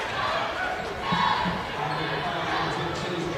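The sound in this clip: Basketball dribbled on a court during a game, repeated bounces heard under a commentator's voice and faint crowd noise.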